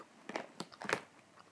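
Chewing on a flavoured jelly bean gives a few soft, crunchy bites in quick bursts, fairly faint, with no talk.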